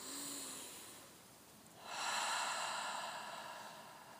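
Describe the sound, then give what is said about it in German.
One slow, deep breath in and out during a guided breathing exercise, soft and airy, heard alone with no talk. “Atme tief ein, tief aus.”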